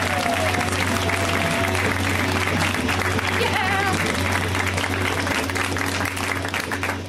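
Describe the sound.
Audience applause for a comedian at a show, steady continuous clapping over a low hum, with people talking over it.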